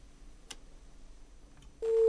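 A busy tone sounds after a caller disconnects from a phone-in line. Faint line hiss and a brief click come first, then a loud, steady tone starts abruptly near the end.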